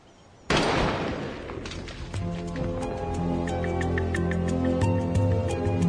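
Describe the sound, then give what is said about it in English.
A single loud rifle shot fires a .223 frangible hollow point round at a shooting range. It starts as a sharp, sudden blast and decays over several seconds, and steady tonal sounds continue underneath afterward. “.223 frangible hollow point round. It's designed to explode upon impact, and the results are devastating. Range is going hot, ears and eyes, ready to fire.”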